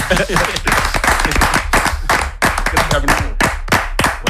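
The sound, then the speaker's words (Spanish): Hand clapping in a radio studio during an emotional farewell, many sharp, loud claps in a quick, uneven run with voices mixed in. “muchas veces hace una cosa que yo creo que deberíamos hacer todos. De repente se pone a aplaudir.”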